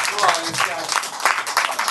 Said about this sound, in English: Sir, get up here, guys. Clap it up for this guy.